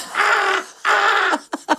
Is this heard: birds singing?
yes